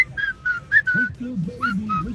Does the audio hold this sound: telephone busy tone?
no